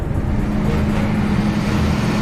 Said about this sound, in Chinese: 驶着满载物资的卡车行驶在高寒缺氧的新藏线上。